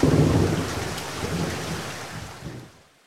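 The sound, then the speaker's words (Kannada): Heavy rain pours down with rumbling thunder during a flood, a dense loud roar with deep low rumbles that holds steady, then fades and dies away near the end. “ಬಹುಶಃ ಈ ಸಲದ ಮಳೆ ನಮ್ಮ ಮನೆ ಮಠಗಳನ್ನೆಲ್ಲ ಮುಳುಗಿಸಿ ಹೋಗಲೆಂದೇ ಸುರಿಯುತ್ತಿದೆ ಎಂದು ಅಂದುಕೊಂಡಳು”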